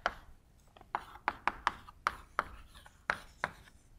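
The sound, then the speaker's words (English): Notation being written by hand: many faint, sharp taps and short scratchy strokes in an irregular rhythm, heard alone. “So here, let's write down something. I'm using some sort of notation I want to use.”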